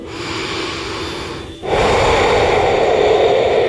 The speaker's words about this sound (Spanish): Pausa. Respira.